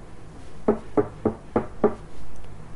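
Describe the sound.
Five sharp knocks on a door, evenly spaced and moderately loud, rapping out a steady rhythm with no voices.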